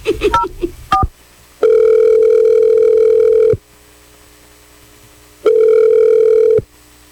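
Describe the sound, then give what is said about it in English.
Telephone ringing after a number is dialed: a few brief dialing beeps, then two long, steady, loud ring-back tones separated by a pause, with no voices. “Yeah, we're going to dial his number right now. Here we go.”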